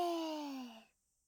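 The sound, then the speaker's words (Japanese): A deep exhale during a breathing exercise, voiced as a soft sigh whose pitch slides gently downward. It fades to silence in under a second. “吐いて、また腕を大きく広げて息を吸って吐いて。”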